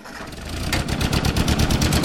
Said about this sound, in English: This 1947 Ford tractor is the same age as its owner, Rob Fleming